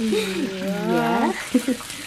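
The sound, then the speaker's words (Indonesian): Hot cooking oil sizzling in a pan, ready for eggs to be added, gives a faint, steady frying hiss beneath a person talking. “Lo, jangan lupa telurnya dimasukkan sekarang. Tuh, sudah panas minyaknya.”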